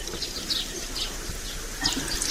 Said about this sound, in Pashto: اوبه نیسه لاسونه دا صابون هم در واخله زه به ګرمې اوبه در واچوم